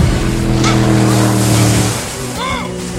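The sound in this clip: A hijacked boat moves across the water, its engine giving a steady low hum under broad rushing water and wind noise, and a voice cuts in briefly near the end.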